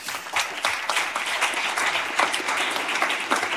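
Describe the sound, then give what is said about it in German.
Audience applause at an evening panel discussion as a guest is welcomed on stage: dense, steady clapping from many hands, fairly loud and continuous from start to finish. “Bitte einen großen Applaus für Agnieszka Wierzchowska”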